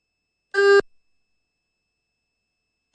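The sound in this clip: Time-signal beeps from a Chinese radio station: one short, clear electronic tone, then a long silence before the next tone begins right at the end.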